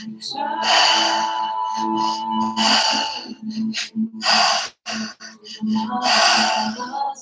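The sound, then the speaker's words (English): Deep breaths are taken during a guided breathing exercise: several loud, drawn-out inhales and exhales with gasping and snorting air, separated by short pauses. “Three more breaths.”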